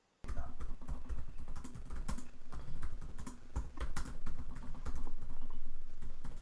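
Rapid, continuous typing on a computer keyboard, many fast keystrokes clattering in an uneven stream for several seconds with no voices.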